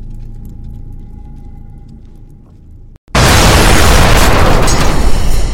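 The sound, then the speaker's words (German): A shell hits and knocks out an artillery gun in a wartime scene. A low, quiet rumble with a faint steady tone gives way to a brief dip, then a sudden, very loud explosion whose roaring blast continues to the end. “Treffer, zweites Geschütz ausgeschaltet, einzelne der Soldaten gesichtet.”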